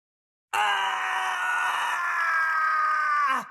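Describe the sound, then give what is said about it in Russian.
A wild, insane scream rings through a stone hall as one long, loud, sustained cry. It holds a fairly steady pitch for about three seconds, then drops sharply and cuts off. “Дикий, полный безумия крик разнесся по залу, оставляя эхо.”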